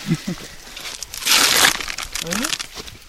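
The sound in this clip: Sticky tape is handled while a small wound is tended, giving a brief crinkling rip in the middle amid people talking.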